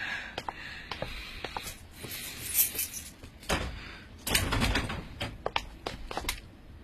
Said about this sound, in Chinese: 你去把门打开。